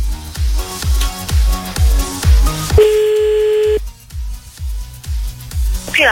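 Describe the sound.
A telephone tone rings out during a redialed call: one steady, even tone lasting about a second, set amid a loud, regular thumping beat that runs before and after it.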